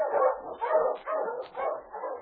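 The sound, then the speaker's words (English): Barking of an Eskimo sled lead dog: a run of about five loud, rough barks and yelps in quick rhythm, each with a howling, whining edge, with no talk over them. “The Wonder Dog King, swiftest and strongest of Eskimo lead dogs, blazes the trail through storm and snow for Sergeant Preston”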